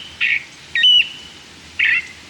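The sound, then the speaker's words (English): California thrasher song from thick chaparral on a January morning in Contra Costa County, California: three bright, whistled and twittering phrases, each under half a second, separated by short pauses and standing alone. “this thrasher is singing out on a January morning in Contra Costa County, California, to insist that the nearby competition stay away.”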